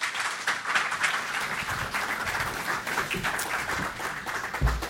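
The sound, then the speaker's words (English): An audience at a JCC author event applauds to welcome the speakers. Dense, continuous clapping with a steady, even texture holds for the whole stretch. “Please join me in giving them a warm welcome to the JCC.”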